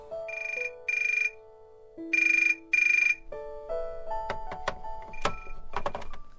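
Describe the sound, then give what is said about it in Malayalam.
Electronic telephone tones as a call is placed: steady beeps broken by four bright, buzzy bursts, then a quicker run of short tones at shifting pitches. The whole sequence is fairly faint and heard alone. “അവൾ ഉടനെ phone എടുത്ത് അമ്മയെ വിളിച്ചു.”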